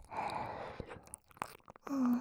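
Quiet chewing of a bread crust, with soft crunchy bites and a few sharp crackling transients spread through a brief stretch of mouth sounds.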